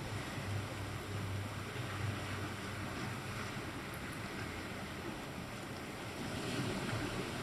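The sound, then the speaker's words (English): Ocean waves wash in a continuous low, soft roar of surf, mixed with wind rushing across the microphone, with no voices present. “including the waves crashing in our surroundings here”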